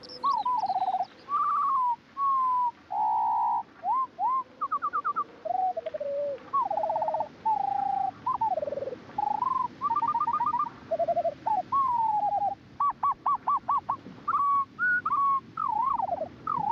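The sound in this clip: Skylark song slowed to a seventh of normal speed becomes a long run of whistled, fluting notes: slurred upward and downward sweeps, trills and repeated phrases follow in quick succession with few gaps, and no voices are heard.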